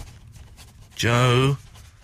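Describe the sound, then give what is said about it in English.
A voice imitating a pencil writing: a single short buzzing vocal sound lasting about half a second, steady in pitch and fairly loud against a quieter background. “Just make pencil noise.”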